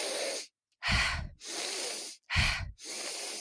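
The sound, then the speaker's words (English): Rapid deliberate breathing with inhales outweighing exhales, a pattern meant to raise arousal: five airy breaths in quick succession, with short forceful sniffing-like ones alternating with longer, softer rushes of air, all fairly loud and with no talk. “if you want to give yourself more gas, it means you need more sympathetic response, which means inhale more than you exhale. So that sounds like,”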